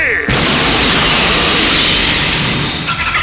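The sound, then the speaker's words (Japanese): A time-space destruction shell being fired, with an explosion effect: a sharp onset swells into a loud, dense, rumbling roar that holds steady for about three seconds. “前段装填、時空破壊弾放て。”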